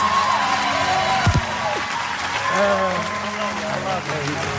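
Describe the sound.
Applause rises from a live audience as a guest is welcomed on stage, with thick, sustained clapping mixed with whoops and cheers, and a voice calling out over the crowd.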